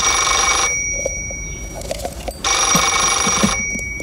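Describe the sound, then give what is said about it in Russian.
A telephone bell rings twice, each ring a loud, sustained metallic trill lasting about a second. A quieter gap with faint rustling separates the two rings. “Поставил аппарат перед собой, снял трубку.”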